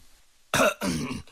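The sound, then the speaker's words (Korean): A dry cough and throat clearing, given deliberately: two harsh, raspy bursts, the second longer and rougher, clear and alone against near silence. “류구장은 우정 마른 기침을 한 모금 깃고 나서 웃으며 호두를”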